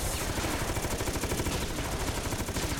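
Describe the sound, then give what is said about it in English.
Rapid, continuous gunfire during a shooting exchange, shots packed into a dense, unbroken stream that stays loud and even throughout. “Shooting straight in front. Took another hit.”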